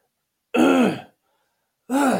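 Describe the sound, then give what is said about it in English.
Throat clearing from a person with a very parched, dry throat: two harsh, loud guttural bursts separated by a short pause, with no talking. “But I start kind of going to clear my throat, be like,”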